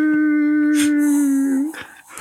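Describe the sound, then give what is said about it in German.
A coyote howls in the distance, one long, steady, tonal wail with strong harmonics that holds for well over a second and then breaks off into fainter, broken calls. “Und in der Ferne so ein Kojote.”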